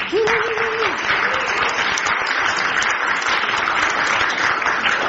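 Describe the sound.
An audience at a Harvard Kennedy School event applauds the organizers with loud, dense, sustained clapping. A voice briefly rises above it near the start.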